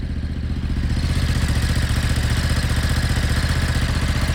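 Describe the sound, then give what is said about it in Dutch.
A motorcycle engine runs steadily without a break, of the kind carried as cargo aboard a ship. It gives a loud, even, rumbling drone with a fast, regular pulsing texture, and no one talks over it. “Staan dit soort motoren op die boot? Deze niet specifiek, maar het lijkt er wel op qua geluid.”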